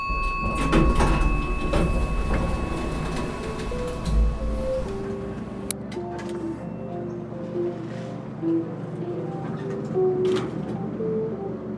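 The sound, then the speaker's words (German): Elevator doors slide with a rumbling mechanical noise, then the elevator ride settles into a steady hum with faint tonal whines over it. “Ja, dann einfach durch den Aufzug. Jo, ich gehe in den Aufzug.”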